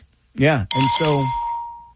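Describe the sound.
A bell sound effect rings one bright, steady ding that holds and slowly fades. It follows a short burst of voice-like sound and carries on alone to the end.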